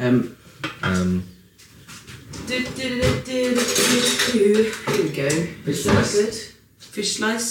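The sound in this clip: Eggs dished up from a pan with a fish slice, with scraping and clinking of metal utensils against the pan under continuous conversation.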